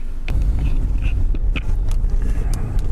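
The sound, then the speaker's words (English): An all-wheel-drive Subaru car drives through ice and snow, giving a loud, steady low rumble with a few scattered sharp crunches and ticks over the top. “We're driving through ice and snow because the Subi will do it.”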